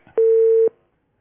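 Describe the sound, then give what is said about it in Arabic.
A line tone after a telephone call is cut off: one steady, pure beep lasting about half a second, followed by silence. “اتقطع الاتصال. حاول اتصل بيا. حاول اتصل بيا تاني.”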